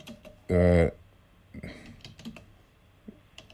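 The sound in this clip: A search is typed on a computer keyboard as a few light, quick key clicks, faint and scattered, with a short burst of voice sounding near the start.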